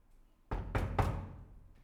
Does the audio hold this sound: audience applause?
no